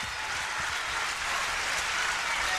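A crowd applauds at a match in Malmö Arena, a dense, even wash of clapping that holds at a steady level throughout.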